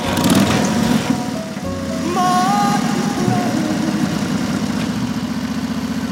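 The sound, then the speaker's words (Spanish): Motorcycle engine idling at the garage door of a care home, a steady low rumble with a buzzing mid-range drone that holds at an even loudness throughout. “Llega al asilo en moto y se detiene ante la puerta del garaje.”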